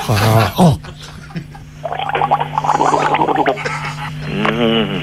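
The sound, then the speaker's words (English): A person gargles while trying to say a name, producing a bubbling, wet gurgle with voiced sounds mixed in. Talking comes before the gargling, which swells over a few seconds. “Yeah, now gargle my name again.”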